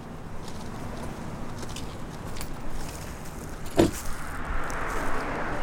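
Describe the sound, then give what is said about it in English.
A car driving down a quiet residential street gives a steady, moderately loud road and engine rumble, with one brief knock partway through. “Teresa drives Cliff down a quiet residential street.”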